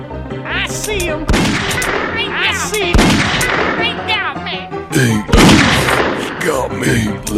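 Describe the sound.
Gunshots ring out in a few sharp, loud blasts spaced apart, mixed with excited shouting voices that carry on between and over the shots.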